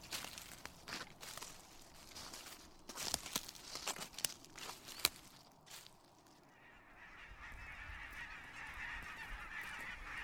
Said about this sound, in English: Do you hear that? That's the call of the geese on their way south for the winter.